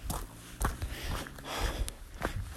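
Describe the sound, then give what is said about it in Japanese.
Footsteps of someone walking the Kumano Kodo pilgrimage trail toward Hongu Taisha, on paths mixing asphalt and easy mountain track: a few faint, soft steps spaced irregularly over low background noise. “今、えー、本宮大社ですね、に向かって歩いております。”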